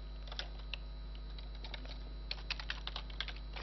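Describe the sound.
Keystrokes on a computer keyboard as a name is typed, with a few scattered clicks at first and then a quicker burst of taps, all over a constant low electrical hum.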